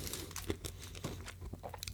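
A hard, crunchy banana-flavoured snack being bitten and chewed, producing quiet, crackly crunches in a quick irregular series with no talk over it.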